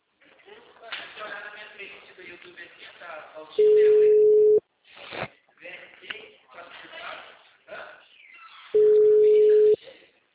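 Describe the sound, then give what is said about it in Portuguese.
Telephone line tone on a call that goes unanswered: two steady one-second tones several seconds apart, with people talking throughout. “Ele não vai atender dessa vez. O número está ocupado.”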